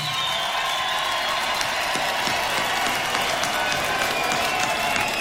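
Audience clapping at a community gathering in Iceland, a steady, dense patter of many hands that holds at an even level throughout without pause.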